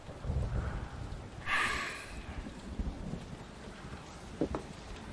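Rain falls in a steady, hissing wash with a low rumble beneath it, swelling briefly in the first half before settling back to an even patter.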